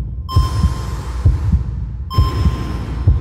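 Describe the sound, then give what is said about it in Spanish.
A heartbeat thumps in steady, low double beats, each a heavy lub followed closely by a softer dub. A few cycles repeat evenly with no voices. “Tengo latidos.”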